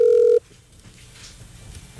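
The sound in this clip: A single short, steady electronic telephone tone on a call with a wrong number, loud and held for about a third of a second, then cutting to faint line hiss.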